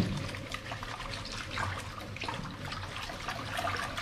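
Lentils being washed in water in a bowl, soft continuous sloshing and trickling, faint and unbroken.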